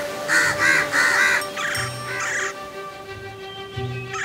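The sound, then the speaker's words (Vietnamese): Harsh, repeated cawing of crows gathering at a nest, heard as several rough caws in quick succession over a steady background tone. “Bà Khâu Ninh thấy ông Khâu nên đã gọi những con quạ khác đến. Và chẳng bao lâu, họ đã tụ tập tại tổ của ông Khâu.”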